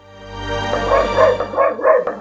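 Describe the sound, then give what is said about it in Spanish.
A female dog vocalizing: a drawn-out, rising whine that breaks into a few short, loud yipping barks in quick succession, with no talk over it. “Ah, es mi perra, joder.”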